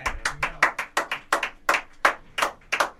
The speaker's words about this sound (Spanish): Acá la gente que está escuchando por Radio Sol quizás puede escuchar los aplausos que damos nosotros que estamos acá dentro de la pecera, pero afuera hay mucha gente y aplaudió lo que acaba de hacer